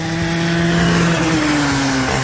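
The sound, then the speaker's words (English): Go-kart engines racing around a track at Leisure Park in Sedalia: a loud, continuous buzzing engine drone whose pitch drifts slightly downward toward the end. “as you go around the track in a go-kart race.”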